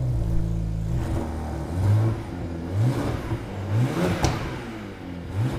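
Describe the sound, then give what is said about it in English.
A 2011 BMW 1M coupe, a Valencia Orange limited edition, revs its engine in several rising bursts over a steady throaty idle, with loud pitch sweeps climbing and dropping back between the blips. “That's the sound of the engine revving in the Valencia Orange Limited Edition Coupe heading to the auction block for charity. This is a 2011 1M.”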